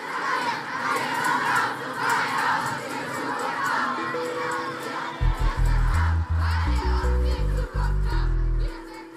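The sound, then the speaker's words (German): A young crowd of about 25,000 chants and shouts at a climate protest demonstration in Berlin in front of the Brandenburg Gate, a dense, loud roar of voices. In the second half, low sustained musical tones rise up beneath it. “Im März 2019 demonstrierten rund 25.000 junge Menschen in Berlin vor dem Brandenburger Tor gegen die zu zögerliche globale Klimapolitik. Wir sind hier, wir sind laut, skandierten sie, weil ihr uns die Zukunft raubt.”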